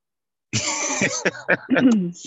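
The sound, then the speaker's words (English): A person clears their throat during an online meeting: one sustained rasping burst, then a few shorter harsh clears, with no talk over it. “Oh, somebody's clearing their throat.”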